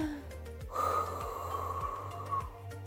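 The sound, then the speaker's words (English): Someone breathes in deeply and then blows onto a hand, making a single soft, steady rush of air that lasts about two seconds before trailing off. “Can you take a deep breath? Now blow onto your hand.”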